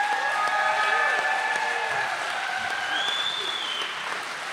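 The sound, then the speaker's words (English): Church audience at Mount Hope Church applauding warmly as a guest speaker is welcomed: steady, dense clapping that holds at an even loudness for the whole stretch, easing off only slightly at the end. “would you give a warm Mount Hope Church, the Hope, welcome to Dr. Dave Williams.”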